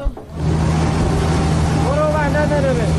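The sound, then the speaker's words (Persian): A fuel tanker truck arrives to help a Red Crescent relief vehicle stranded on a road without fuel. Its engine rises from near quiet into a steady, low droning hum, and a voice talks over the later part. “این صدای سوخت بریست که به کمک ماشین هلال احمر آمده. امداد رسانی که سوختش تمام شده و در جاده مانده.”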